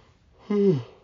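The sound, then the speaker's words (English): A yawn, short and voiced, rising out of a faint breathy start into a held tone that drops in pitch at the end before fading; no talk. “why am I yawning? I wasn't yawning like 10 minutes ago, but all of a sudden I am.”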